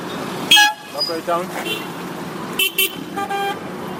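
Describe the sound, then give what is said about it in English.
Taxis honking on the streets of Boya, Cameroon, during the Africa Cup of Nations: several short toots and beeps come in bursts over steady street noise with voices. “Sound of taxis working on the streets of Boya shows the vibrancy of the town.”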